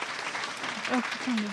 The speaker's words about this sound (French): Vous pouvez les applaudir bien fort, s'il vous plaît.